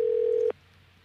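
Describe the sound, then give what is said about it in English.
A steady telephone tone sounds while a call to a pharmacy is dialed. One clear, level pitch holds for about half a second and then cuts off, leaving a low faint hum. “Are we rolling here? We've got the... Are we dialing? There we go.”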